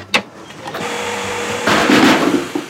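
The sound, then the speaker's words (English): A homemade invention switches on to suck the air out of a helmet. A sharp click is followed by an electric motor's steady whir, which grows louder and rougher partway through before another click. “So turn it on, it'll suck the air out of the helmet.”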